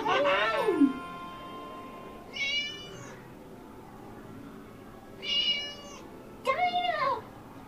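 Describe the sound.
A cat meows a few times, harmonic cries separated by quiet gaps, the first one falling in pitch.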